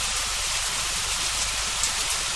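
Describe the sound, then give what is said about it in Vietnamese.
Steady rain falls on a stormy night with lightning over a village, a dense, even hiss that holds at the same level from start to finish with no voices. “Mưa chút xuống và những giọt mưa sáng loáng như thép dưới ánh chớp”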